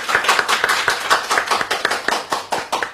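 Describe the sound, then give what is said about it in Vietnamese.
A church audience applauds during a joyful thanksgiving, the brisk claps coming fast and fairly even at a steady level. “Trong tâm tình hân hoan tạ ơn Chúa, chúng tôi mời anh chị em cùng một tràng hoa tay để chúc mừng nhau.”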